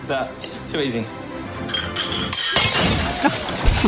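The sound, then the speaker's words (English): A favourite special teacup breaks as a sound effect: one sudden bright crash of shattering china partway through, spilling into scattered tinkling fragments, while people talk throughout. “Did you add that sound effect, though? I might have. Did he break it? Yeah, of course he did.”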